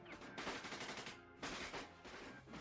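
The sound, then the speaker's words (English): Rapid machine gunfire erupts during a cartel massacre: two sustained, rattling bursts of metallic staccato shots, the second starting midway, loud and unbroken. “Guns popped rhythmically in metallic staccatos that mowed down the armed men who did not get a chance to retaliate.”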